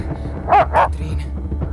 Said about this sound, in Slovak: Okamžite chyť toho psa, hlupák.